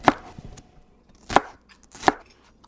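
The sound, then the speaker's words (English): A knife chops lemongrass into small slices from the tip, giving three crisp, fairly quiet cuts at uneven intervals, with near silence between them. “how do we cut the lemongrass? Roughly smaller slices, just starting from the tip right here.”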